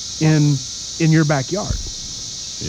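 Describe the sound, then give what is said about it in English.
Cicadas in a backyard make a continuous, high-pitched buzzing drone that holds steady the whole time while a man speaks briefly over it. “So this is the sound of cicadas”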